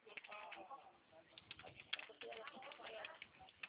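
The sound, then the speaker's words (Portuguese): Notes being written during a phone call about a company registration: faint, irregular tapping and scratching in brisk bursts. “Eu vou anotar aqui para o senhor, vou tirar um requerimento de empresário ou contrato social.”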